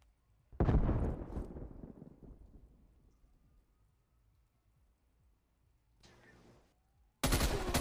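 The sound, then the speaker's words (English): Video game gunfire comes in a few heavy, booming bursts, each with a long rumbling tail, separated by quiet stretches, ending in a sudden loud burst. “I'm getting shot at.”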